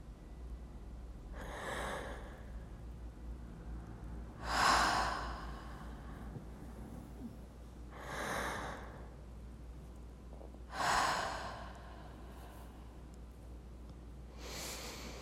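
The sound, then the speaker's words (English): Slow, deep breathing as a calming exercise, made up of a handful of long, airy breaths spaced several seconds apart. They are fairly quiet and sit over a steady low hum, with no talking. “Take my hands and breathe with me for a little, okay?”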